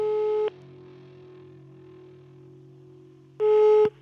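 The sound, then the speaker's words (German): Ringback tone of an outgoing telephone call: two steady mid-pitched tones about three seconds apart, each lasting half a second, with a faint low hum on the line between them. “Also, bleibt mal dran, ich rufe den mal an.”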